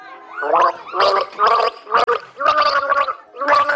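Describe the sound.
Gargling a mouthful of water to the children's tune Alle meine Entchen. The gargled notes come as a rhythmic series of loud bubbling bursts with short gaps between them.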